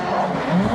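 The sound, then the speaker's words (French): Roar of a combustion-engine race car driving on ice in an ice-racing series, a brief, steady, loud engine growl with no pauses. “vous voulez vous faire écouter le bruit, parce que ça c'est le bruit du trophée Andros thermique.”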